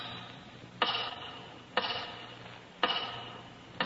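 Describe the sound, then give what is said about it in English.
A big tower clock ticks slowly and faintly, with four sharp ticks about a second apart, each followed by a brief ringing decay. “Once again, your eyes wander to the big tower clock.”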